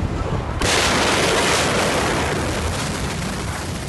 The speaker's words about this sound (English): What we do know is that at about 6:14 p.m. on August 4th, the fire suddenly exploded.